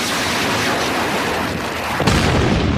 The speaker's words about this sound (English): I'm getting an exact ID on the bogey now. Iraqis again, launching Sidewinder missile.